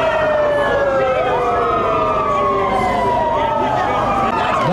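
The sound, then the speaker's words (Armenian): Police car sirens are switched on outside a government building during a protest, several loud wailing tones overlapping and sliding up and down continuously. “Ոստիկանական մեքենաների ազդանշանները միացնելով փորձեցին խլացնել Բագրատ արքեպիսկոպոս Գալստանյանի ձայնը։”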